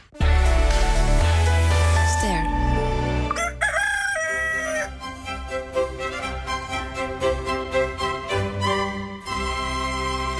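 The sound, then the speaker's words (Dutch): A rooster crows once, a loud wavering call that follows a deep sustained tone at the start, and then gives way to a run of rhythmic, plucked-sounding music. “Wakker gekraaid”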